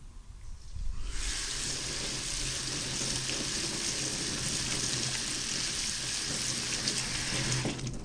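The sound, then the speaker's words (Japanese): Cooked rice is rinsed in a colander under running water. A steady, loud hiss of flowing water starts after a second and continues evenly, with a faint splashing texture. “炊いたご飯は、ザルに入れてさっと水洗いします。”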